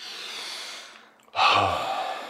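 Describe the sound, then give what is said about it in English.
A deep breath: soft breathy noise fades almost to silence, then a sudden, loud, sharp inhale follows and tapers off. “Take a deep breath.”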